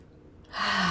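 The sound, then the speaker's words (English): A single deep inhaling breath, taken during a relaxation exercise. It begins faint and then swells into a loud, breathy intake that holds to the end. “take a couple of deep breaths, just really inhaling”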